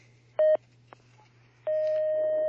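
Telephone line tones as a caller connects to a phone-in question line: a short steady beep, a pause, then a long unbroken tone of the same pitch that sounds until the end.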